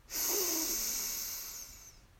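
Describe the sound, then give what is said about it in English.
A single long, deep breath in, drawn by expanding the belly: a steady airy hiss that swells in quickly and holds for about two seconds before thinning out, heard alone. “We'll breathe in by expanding our belly on our out in breath.”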